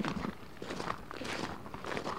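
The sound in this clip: People walk around a potato farm, their footsteps falling in a steady, even rhythm of soft crunching steps. The steps are clear and continuous from start to finish.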